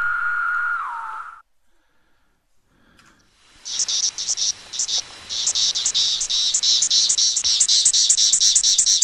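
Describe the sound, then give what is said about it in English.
Periodic cicadas emerging and calling on an Alabama Gulf Coast morning: a steady, high-pitched pulsing buzz that starts after a brief tone and a short quiet gap, then continues loud and rhythmic to the end. “Listen, it's the hatch out of the periodic cicadas. There they are. There they are.”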